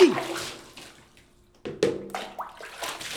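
Hot water splashing in a bath during a playful water fight, a sharp splash at the start, a quieter lull, then a sudden burst of fresh splashes followed by a few more sloshing hits.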